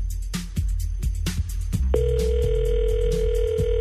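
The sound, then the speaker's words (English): A telephone dial tone comes in partway through as someone calls another person, a steady, unbroken electronic hum that continues to the end while people keep talking over it. “Hold on for a second. Let's dial him up.”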